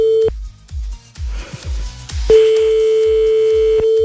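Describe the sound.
Ringback tone on a phone line as a call is placed during a radio prank call: a brief steady tone, a gap, then a longer sustained tone, all over a low, rhythmic thumping beat.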